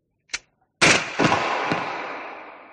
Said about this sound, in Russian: Выстрел оказался удачным.